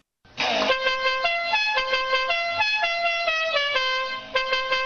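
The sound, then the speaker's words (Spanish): Taxi car horns honking in a loud, continuous blare, with several overlapping horn tones stepping between a few pitches and sounding alone throughout. “los taxistas estos que tocando la bocina.”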